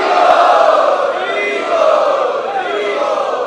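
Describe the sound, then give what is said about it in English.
An audience at a monthly festival evening loudly chants in unison to welcome a guest. The many voices form a dense, sustained sound that dips slightly midway and then swells again. “Let us welcome him by loudly chanting.”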